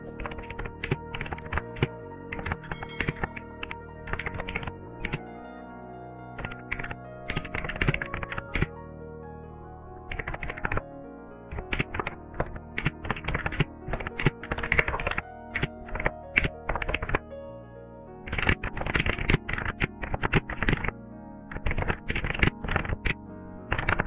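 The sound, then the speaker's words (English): Typing on a computer keyboard as full details of a game are entered, many quick, faint key clicks in uneven bursts with brief pauses, and no speech. “I'm going to type here full details of my game.”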